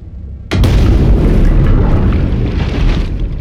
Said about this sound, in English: Support team apparently couldn't resist using their torpedoes. Get out before the cabin collapses on top of you.